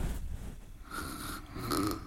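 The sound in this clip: A person sleeping in bed snores in a few rough, low, rasping breaths at a fairly faint level.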